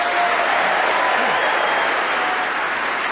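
Studio audience applause welcoming the panellists on a comedy panel show: a steady, sustained wash of clapping from a large crowd, unbroken from start to finish.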